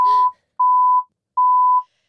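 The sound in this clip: Censorship bleeps from a college football sports talk segment: a loud, steady, mid-pitched tone sounds three times, each lasting under half a second. A brief burst of voice is heard at the start, alongside the first tone.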